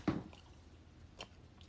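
Soft, wet chewing of jackfruit: a squishy moist bite near the start and a second fainter squelch later, both quiet and with no talking.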